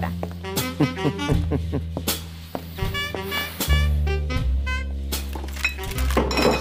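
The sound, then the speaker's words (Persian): Cups of coffee and tea are set down on a surface, giving many light clinks and dull thunks of crockery in an irregular rhythm over a low steady hum. “قهوه چایی رو میذارم همینجا.”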